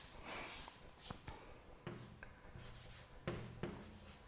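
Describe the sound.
Writing on a board during a mathematics lecture, faint scratchy strokes broken by a few sharp taps, with short pauses between the marks.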